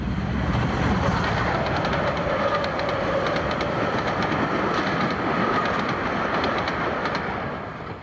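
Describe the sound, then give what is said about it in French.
A huge freight train thunders past on the rails, a loud, continuous roar layered with the rhythmic clickety-clack of wheels over the track, easing slightly in the final moment. “C'est un énorme train de marchandises qui fait un vacarme épouvantable.”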